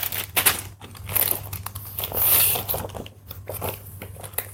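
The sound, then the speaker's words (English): Loud plastic crinkles and rustles continuously as a bag is sealed while beach bags are repackaged in a living room, with uneven swells of crackling and a few sharper crunches. “The plastic is really loud plastic. Then we take it back up, sealed.”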